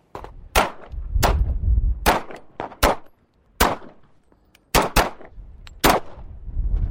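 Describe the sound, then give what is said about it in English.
Gunshots at a gun range, many sharp, loud cracks fired in an irregular sequence, some in quick pairs, each with a brief ringing tail and short pauses of quiet between bursts. “This gun range is similar to others across America where firearms enthusiasts, proud and protective of their Second Amendment rights, can practice becoming a better shot.”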